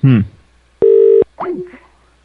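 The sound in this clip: A telephone call being placed: one steady electronic ringing tone sounds alone for about half a second, with speech just before and after it.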